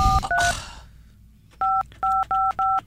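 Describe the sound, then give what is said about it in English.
Keypad tones of a telephone number being dialed: two quick beeps over a noisy burst, a pause, then an even run of several more crisp, evenly spaced beeps. “So he was so unfunny that the phone just cut out on him. But, yeah, let's give Caleb a call.”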